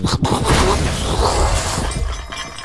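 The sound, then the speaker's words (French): Crash of a helicopter hitting plane trees and slamming into a school yard: a loud, dense burst of shattering and breaking noise that stays heavy for a couple of seconds before easing slightly. “C'est l'hélicoptère qui vient de se prendre les platanes et qui s'écrase dans la cour de l'école.”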